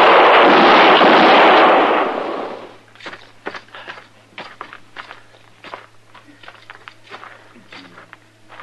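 Gunfire in a western radio drama lands as a loud, sustained booming blast, followed by a long run of lighter, steady thuds like footsteps.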